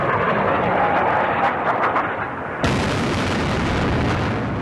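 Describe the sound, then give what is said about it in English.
Anti-aircraft guns firing and blasts at the opening of an air war in Iraq, heard as a dense, continuous roar of gunfire and explosions that stays loud throughout, with an abrupt change in texture about halfway through. “I can hear mainly the anti-aircraft guns, but there were several blasts.”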